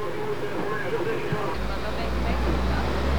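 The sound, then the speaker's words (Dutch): An armoured riot police vehicle driving off amid street rioting: a deep, heavy engine rumble swells in partway through and holds steady beneath a continuous noisy background. “En daar gaat de ME, hij rijdt nu op. Dat is de gepantserde auto van de ME.”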